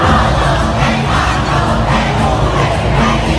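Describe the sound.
Crowd noise outside a stadium during a concert: a loud, dense, steady roar of many people with no distinct breaks or single standout events.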